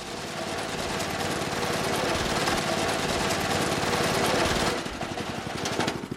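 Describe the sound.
Engine-like rattling of tall grass being mowed in a cemetery in early June, with a dense, steady mechanical clatter running throughout and no talk.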